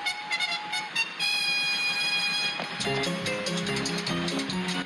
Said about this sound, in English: There's a train coming.